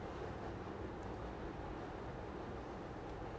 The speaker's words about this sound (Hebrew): הצלילים פוגשים את אוזניי. וגם בהם יש השתנות, אפילו הצליל של המזגן הוא בעצם קל להבחין שיש פה השתנות רבה.